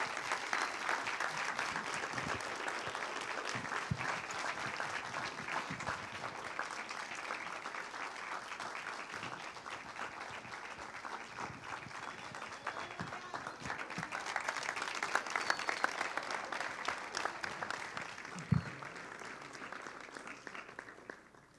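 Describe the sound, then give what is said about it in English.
A church audience stands and applauds a welcomed guest speaker, with dense, steady clapping that lasts about twenty seconds, swells toward the middle and tapers off at the end. “Let's stand up and give a warm welcome to our dear friend, hero, and patriarch of the body of Christ, Dr. R.T. Kendall.”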